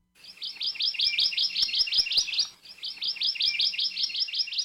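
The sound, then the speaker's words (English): Song of the Hawaii Amakihi, a Hawaiian honeycreeper, in ohia forest on the Big Island: two long, high, bright trilled phrases of rapid repeated notes, loud and clear, with a brief gap between them. “In Ohia Forest, all over the Big Island, you can hear the song of the Hawaii Amakihi.”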